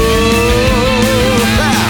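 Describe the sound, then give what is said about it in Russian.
A car engine roars loudly as the car drives off, with a dense, steady revving sound and shifting tones throughout. “Я сажусь в свою любимую машину.”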